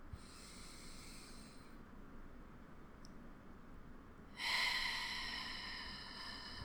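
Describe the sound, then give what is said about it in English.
A long, deep inhaling breath during a guided breathing exercise: a soft, airy hiss swells after a quiet stretch and then slowly trails off. “I'm going to invite you to take three really long, deep, clearing breaths with me. Okay? Okay. Okay. So inhale.”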